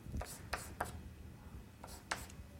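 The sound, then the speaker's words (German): Writing on a board during a physics lecture on cosmology: a few short, scratchy strokes separated by brief pauses, with a quiet background. “Oder ich schreibe einfach hin h.”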